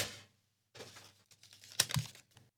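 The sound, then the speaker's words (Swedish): Paper question slips rustle and crinkle as they are shuffled and drawn from a box, in faint scattered bursts with a short pause between the handling noises. “Bra, det är bara att dra en fråga ur lådan. Det här också. Det här också ja. Jag blandar lite.”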